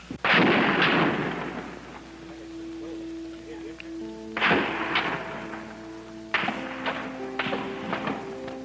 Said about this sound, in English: Ricochet bullets bouncing off the top of the building.